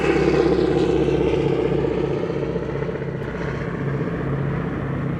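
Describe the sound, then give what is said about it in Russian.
An airplane circles above a fortress, making a steady, loud droning engine hum. The broad rumble holds evenly through the whole stretch, with no voices. “Он встает и быстро идет к окну. Над крепостью кружит самолет.”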